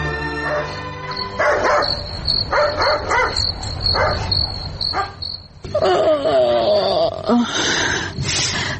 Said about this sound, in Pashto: زوګورم چې دا سپی ولې غاپي؟